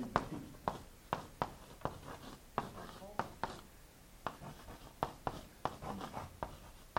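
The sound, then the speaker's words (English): Handwriting on a board in a classroom, letters written large: many short scratchy strokes and taps in an irregular rhythm, faint and continuous. “Trying to write big enough because oftentimes I don't.”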